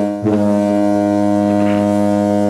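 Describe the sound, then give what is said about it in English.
A foghorn sound effect: one deep, loud, sustained blast with a rich, buzzy drone that holds steady to the end. “But those foghorns, you know.”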